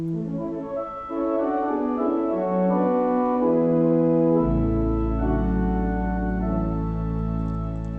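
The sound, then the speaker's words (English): A classical pipe organ playing sustained, full chords with rich, smooth tone; a deep bass note enters partway through and holds under the upper voices to the end. “so whereas you would expect the classical organ to sound like this”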